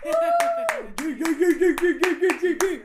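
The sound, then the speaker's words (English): Hand claps inserted as applause, about ten sharp, evenly spaced claps, with a sustained voiced tone running beneath them. “I feel like I should insert claps here.”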